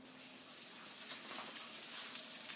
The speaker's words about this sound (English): I'm going to see how the kale is wilting. So the mushrooms are cooking nicely.